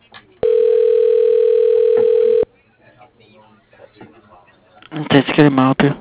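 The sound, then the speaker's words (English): A steady telephone dial tone holds at one even pitch for about two seconds, then cuts off abruptly. Faint line noise follows, then a loud burst of voices near the end. “Please hold or press 0 for the next available representative. Dialing.”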